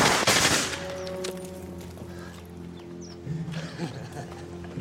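A submachine gun fired over people's heads: a short, loud burst of rapid shots at the start, then a quieter stretch of low rumbling background.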